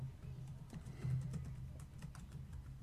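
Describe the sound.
Faint typing on a computer keyboard, a run of light, irregular key clicks over a steady low hum.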